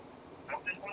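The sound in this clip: Call-waiting tone on a phone line: a few short, faint electronic beeps sound under a person talking over the phone.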